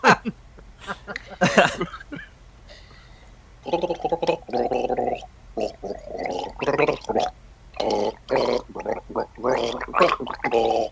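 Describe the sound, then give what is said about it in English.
A person gargling while trying to get through Christmas songs: wet, bubbling gurgles in uneven bursts, alternating with people talking. “Keep gargling.”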